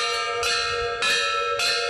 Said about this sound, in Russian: Колокола в звоннице на настоящие совсем не похожие.